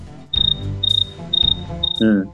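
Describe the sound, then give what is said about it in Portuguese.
Cricket chirping played as a sound effect: four evenly spaced bursts of quick, high, pulsed chirps over a low background hum, followed by a brief different sound at the end. “Cara, bota o grilo agora, bota o grilo. Bota aquele grilozinho. Cri, cri, cri, cri.”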